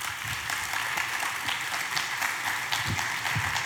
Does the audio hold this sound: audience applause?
yes